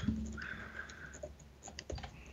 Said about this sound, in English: I'm just writing these all down.